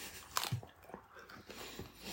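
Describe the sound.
Crunchy food is chewed and bitten quietly. A few crisp crunches come at an uneven pace, with no talk.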